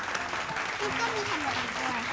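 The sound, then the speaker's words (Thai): Applause rings out for a child's amusement-park drawing at a children's art presentation: steady, even clapping throughout, with a voice sounding faintly over it. “นี่คือสวนสนุกของน้องเซนนะครับเอาปรบมือให้น้องเซนหน่อย”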